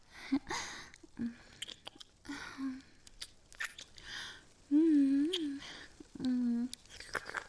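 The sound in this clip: Chewing and smacking as someone tastes a sweet, creamy treat: soft wet bites and squishes with short hummed vocal sounds in between, fairly quiet overall.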